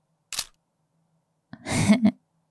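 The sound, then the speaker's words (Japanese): Camera shutter firing as a photo is taken: a sharp, brief click, then after a pause a longer mechanical burst ending in a couple of quick clicks. No voices are heard. “ごめんね、ちょっと可愛かったから写真撮っちゃった。”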